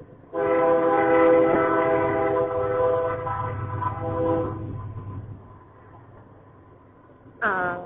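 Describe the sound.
A passing train, heard from outside, sounds a long, loud multi-tone horn over a low rumble of rolling cars. The rumble fades after the horn stops, and a second short horn blast starts at the very end.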